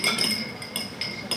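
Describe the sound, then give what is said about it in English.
A bar spoon clinks against glass and ice as a bartender stirs a Bloody Mary of vodka and tomato juice at an expat pub in Paris. A few bright, sharp taps come in an uneven rhythm. “That's the sound of a bartender at Harry's Bar stirring a Bloody Mary.”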